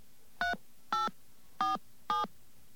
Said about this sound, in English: we're going to try and call the fax back service right now and see if we get a fax